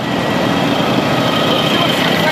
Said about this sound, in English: That is the sound of Vladimir Putin himself riding a motorcycle with a sidecar in Crimea with the Night Wolves Motorcycle Club